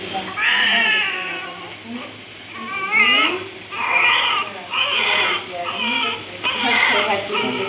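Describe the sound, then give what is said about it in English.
Newborn baby crying just after birth, with repeated high, wailing cries in several bursts, each rising and falling in pitch with short gasping breaks between them. “That was the cry of my second eldest when he was a baby.”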